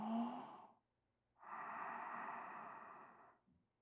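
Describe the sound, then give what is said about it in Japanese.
Slow, deep breathing as someone is coached to breathe in and out: a short, soft breath, then after a pause a long, steady, airy breath. Both are unvoiced and even. “吐いて、僕ちゃん、深呼吸”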